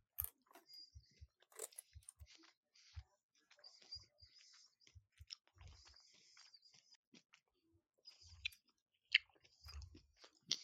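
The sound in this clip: Crunchy chewing and biting of a snack, many irregular bites and jaw crunches spread across the stretch, fairly faint, with no talking over them.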